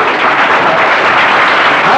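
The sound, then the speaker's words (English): Congregation clapping in praise during a church service: a brief, loud, dense wash of many hands clapping together, steady and unbroken for two seconds. “Just give the Lord a clap.”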